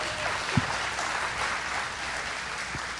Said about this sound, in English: Would you make welcome Amanda Turner? Would you do that?